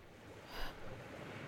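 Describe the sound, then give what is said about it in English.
Waves lapping against the wooden timbers of a dock, a faint, low wash of water with one soft swell rising and falling midway through the short stretch. “The waves lapping at the timbers. A storm brewing in the distance.”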